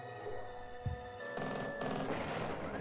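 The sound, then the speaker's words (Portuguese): Gunfire from a video in which bullets hit oil barrels and make them explode: one low thump, then dense, rumbling bursts and booms that carry on to the end, faint overall. “E, e é legal que eles estão atirando em um, que, um monte de barril de petróleo, né? Porque tá explodindo o negócio só de acertar uma bala.”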